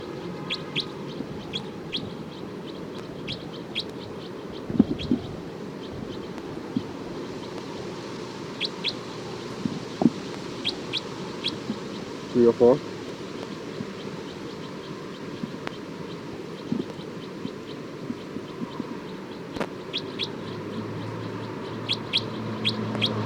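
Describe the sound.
Bird alarm calls: faint, short, high chirps repeat in scattered bursts across the whole stretch over a steady low background hiss.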